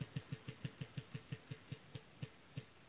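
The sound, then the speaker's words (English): A prize wheel spins with a quick, regular series of faint ticking clicks that gradually spread farther apart as it slows. “Okay, let me spin. Here, we'll spin the wheel. It gets you a good prize on this wheel here.”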